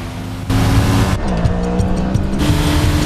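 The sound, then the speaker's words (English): Motorcycles speeding forward with loud, continuous engine roar whose pitch shifts and wavers, with dense high-speed noise throughout and no voices. “as the two vampires on motorcycles speed towards him.”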